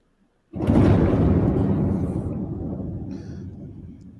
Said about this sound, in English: Jesus, and you just hear the bomb go off right out of the background of that.